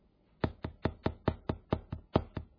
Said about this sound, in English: Who is that? Somebody knocking.